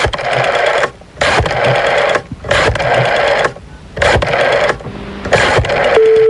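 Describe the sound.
A telephone rings during a prank call, heard as several loud, buzzy bursts separated by short gaps, with a brief steady tone near the end.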